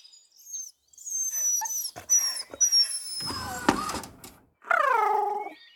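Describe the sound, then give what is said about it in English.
A big-eared, three-legged dog whimpers, ending in a thin, wavering high whine after several sharp, high-pitched tones and brief scuffling noises. “Look at this dog”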